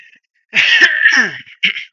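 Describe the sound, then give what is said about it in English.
A man coughs and clears his throat during a gaming news segment: a strained, voiced rasp of about a second, then one brief second burst, loud and alone. “I think I need cough.”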